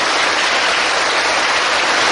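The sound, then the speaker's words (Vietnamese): A big round of applause from a gathering of students, a loud, dense, unbroken wash of clapping that holds steady in level from start to finish. “Quá giỏi, cho một tràng pháo tay thật lớn.”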